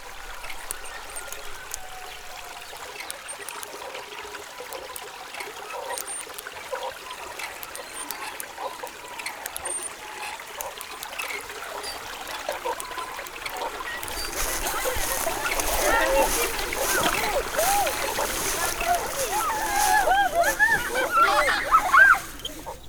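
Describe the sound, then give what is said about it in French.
Water streaming and trickling around a boat bound for the Amazon, a steady wash of sound that swells and grows fuller about two-thirds of the way through. “Ils montèrent dans un bateau clandestinement en partance pour l'Amazonie.”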